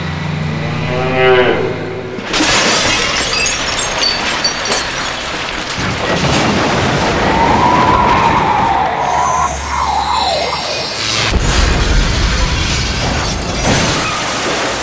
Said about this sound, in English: Right then, right through the McDonald's restaurant. Seems it doesn't exist anymore.